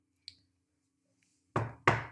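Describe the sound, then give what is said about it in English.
Two loud, heavy knocks on a castle door, the second following quickly after the first, each a dull, resonant thud standing alone with no voices. “He knocked at the door.”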